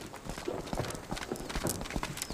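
Donkey hooves clip-clop in a steady run of many quick steps, crisp and fairly loud throughout.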